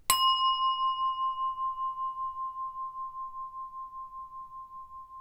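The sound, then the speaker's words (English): A meditation bell rings with a single bright strike, then a pure sustained tone that hums with slow, regular pulsing as it gradually fades, heard alone in near silence. “once you hear the bell, switch off the CD and sit for a few moments to absorb the experience before moving on with the rest of your day.”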